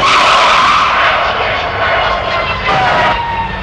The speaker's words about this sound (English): The plane touches down